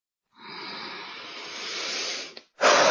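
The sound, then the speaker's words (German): Slow, deep breathing during meditation: a long, steady breath of soft airy noise, a brief pause, then a louder breath begins. “Ich atme wieder durch.”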